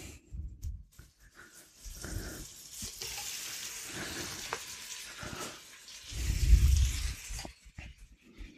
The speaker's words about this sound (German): Das reicht auch schon an Vorsprung für die Zwiebeln. Jetzt kommen die Tomaten dazu.